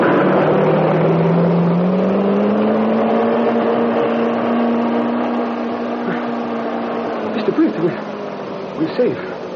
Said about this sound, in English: Crash right through barricade. We're safe. Just a dented fender.